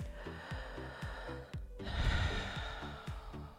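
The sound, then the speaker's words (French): Breathing in and out through a half-open mouth as a calming exercise for stress: a soft, airy rush of breath over a steady, low, rhythmic pulsing in the background. “il vous suffit d'ouvrir la bouche, d'entr'ouvrir la bouche et de respirer que par la bouche.”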